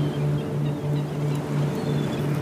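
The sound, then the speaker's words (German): Ocean waves wash back and forth on a shore, heard as a steady, continuous rushing wash with a faint low hum underneath and no distinct breaking crashes. “wie sich das Wasser immer wieder vor und zurück bewegt”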